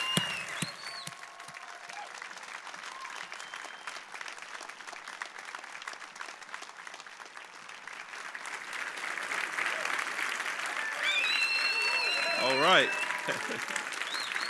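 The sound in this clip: A church audience stands and applauds a visiting guest pastor with sustained, dense clapping that swells louder toward the end, as voices call out over it.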